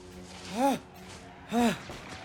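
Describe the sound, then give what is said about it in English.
Heavy, voiced breathing from Carlos as he lies back after a fight with zombies: two strained, drawn-out exhales, each with a tone that rises and then falls, separated by quieter breaths. “Carlos lies back, breathing heavily.”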